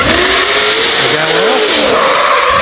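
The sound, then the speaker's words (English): A fire truck's engine runs hard as it pulls in to a fire scene with its lights on. The loud, sustained roar stays dense throughout, and its pitch shifts as it revs. “Coming in. Truck running hard.”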